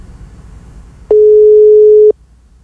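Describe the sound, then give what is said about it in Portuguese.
Ringback tone of an outgoing phone call: a single loud, steady mid-pitched beep lasting about one second, sharply starting and stopping over faint background hiss. “Vamos lá, ligação em andamento. Tá chamando.”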